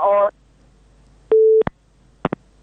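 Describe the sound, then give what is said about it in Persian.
A single steady electronic tone of a phone line after a call drops, about a third of a second long, followed by a few sharp clicks, with a brief burst of voice just before it. “تماس آقای بهاءالدین را از دست دادیم، قطع شد”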